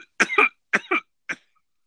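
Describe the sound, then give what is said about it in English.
A person gives a rapid series of harsh coughs in three short clusters. The first two clusters each hold a double burst and the last is a single, fainter cough, followed by silence. “Don't get off until you cough.”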